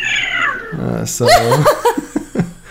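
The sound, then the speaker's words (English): A cat meows a few times, with one drawn-out, wavering yowl in the middle and shorter, clipped meows after it. “That's a cat. Yeah, it is. They're all over the place.”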